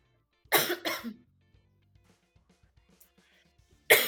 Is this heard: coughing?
yes

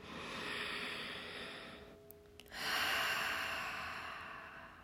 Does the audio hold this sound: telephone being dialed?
no

